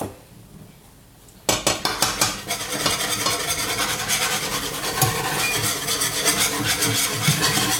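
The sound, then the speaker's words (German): A spoon stirs flour into a sauce in a pot on the stove. After a quiet start come a few sharp clinks, then steady, continuous scraping and stirring against the pot. “So, und immer schön rühren, damit das nicht klumpt nachher.”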